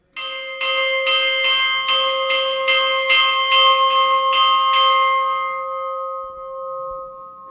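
A church bell rings for noon at the mountain hospice on the Great St Bernard Pass, struck many times in an even, brisk rhythm. Its bright ringing then hums on and slowly fades after the last strike.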